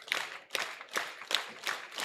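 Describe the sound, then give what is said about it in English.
Baseball fans in the stands clap together in rhythm in anticipation of a strikeout pitch. About six faint, evenly spaced bursts of crowd clapping follow one another at a steady pace. “The fans start to clap in anticipation of the break even.”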